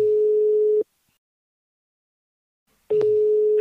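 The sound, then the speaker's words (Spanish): A telephone line tone sounds while a call is placed for a phone survey. A steady, single-pitch hum plays, cuts out for about two seconds of silence, then returns. No voices are heard. “Pero vamos a hacer una llamada. Vamos a hacer una llamada. Vamos a hacer una llamada”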